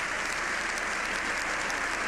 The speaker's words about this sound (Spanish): La presidenta del Congreso le comparte un par de pensamientos al Papa en vista de que este aplauso y esta ovación de pie no acaban, no terminan.